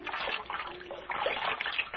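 Cold water pours and splashes in a steady, noisy stream for about two seconds, with no talk.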